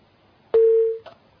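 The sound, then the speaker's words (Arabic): A telephone tone after a call disconnects: one steady, mid-pitched electronic beep of about half a second, starting with a click and followed by a brief faint click, alone against near silence. “طيب انقطع اتصالك يا اخي، وحاول ان تتصل مرة اخرى.”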